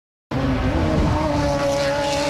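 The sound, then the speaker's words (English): IndyCar race cars roar on the track at the Markham, Ontario race. The loud, continuous engine sound starts abruptly and holds steady, with a high, sustained whine above a dense low rumble. “IndyCar drivers finally got the green light to hit the track in Markham, Ontario for the first time today.”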